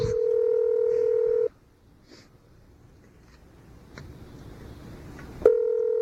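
Telephone dialing tones: a steady electronic tone holds for over a second, then a quiet stretch with a few faint clicks, before another tone starts at the end.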